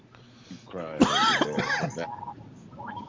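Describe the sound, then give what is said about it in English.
A loud, rasping, voiced cough that sounds like throat clearing, drawn out for about a second with a gurgling, growly tone, heard alone without talk. “Come near me, I'll cough. Come near me, I'll cough. I'll cough on you”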